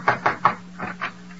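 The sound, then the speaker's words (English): Knocking on a door: three quick raps, then a short pause and two more, fairly soft and alone over a low steady hum. “Somebody knock.”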